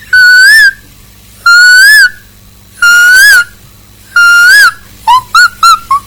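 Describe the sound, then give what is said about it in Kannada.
A person whistles in imitation of a nightingale's song, four loud, long whistled phrases each bending up and down in pitch, separated by pauses, then a rapid run of four short chirping notes. “Nightingale”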